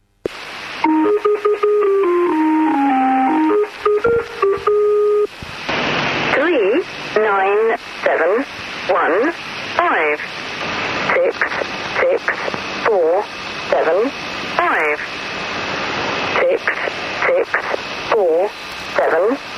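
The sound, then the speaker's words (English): The Lincolnshire Poacher numbers station, edited short: a chiming folk-tune melody plays first, then a voice reads out numbers in clipped, evenly spaced bursts over steady radio hiss. “We've got one, the famous one called the Lincolnshire Poacher, and we've edited it slightly for time, so it doesn't sound exactly like this, but it'll give you an idea.”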